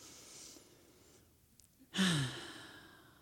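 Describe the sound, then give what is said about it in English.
A deep, mindful breath is taken during a meditation with kids: a faint inhale, then a louder sighing exhale that trails off slowly. No one talks. “let's take a breath with mindfulness, one breath”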